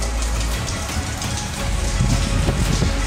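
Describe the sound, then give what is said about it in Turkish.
Sudden heavy downpour with large hail in Hatay, Turkey: a dense, loud, continuous hiss and patter that thickens in the second half with sharper, scattered impacts. “Birden bastırdı. Yani bayağı bir büyükçe dolu yağdı.”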